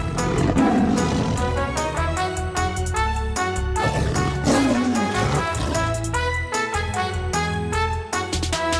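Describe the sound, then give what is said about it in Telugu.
A tiger roaring, with deep rough growls surfacing twice within a loud, dense and continuous backdrop that holds steady throughout. “ఇది ఒక పులి.”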